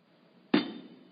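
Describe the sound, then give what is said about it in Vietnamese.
A hand strikes a table once, giving a single sharp, fairly loud thud that decays quickly into quiet, with nothing else around it. “Thầy đập cái bàn đó là ai nghe hết phải không?”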